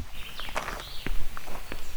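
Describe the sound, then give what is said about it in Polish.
Footsteps of people walking through the grounds of a restored park with old trees and rhododendrons beside a historic building. A few soft, irregular steps land on the path at moderate loudness, with no voices. “To co, idziemy tak, sobie kawałeczek. Kawałeczek przejdziemy.”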